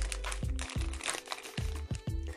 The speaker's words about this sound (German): Und dann machen wir das jetzt hier oben einfach mal auf. Wir schneiden es jetzt mal auf.